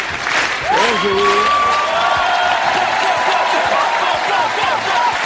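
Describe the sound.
Loud, sustained applause and cheering from a television show audience greeting an elderly former head of state, with a rising whoop-like voice early on over a dense, even wall of clapping.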